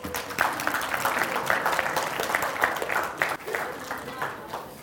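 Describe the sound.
An audience applauds to welcome a couple back from their honeymoon, a dense run of clapping at moderate volume with fluttering, uneven hand strikes that thin out slightly near the end.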